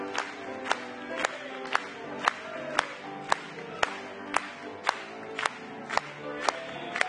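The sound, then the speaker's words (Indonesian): An audience claps together in a steady, even rhythm. Sharp, evenly spaced claps ring out over a continuous, sustained crowd noise. “Mari kita bertepuk tangan kepadanya.”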